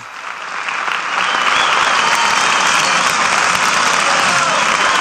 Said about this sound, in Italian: Sentite come il pubblico accoglie con l'ovazione quando lei annuncerà cosa sta per cantare.